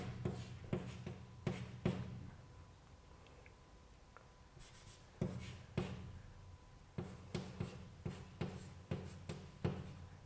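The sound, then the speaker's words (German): A math matrix is being written out by hand in faint, scratchy strokes that come in short bursts, with a few quiet pauses between groups of marks. “Und das schreibe ich jetzt, dass das in so eine Matrix”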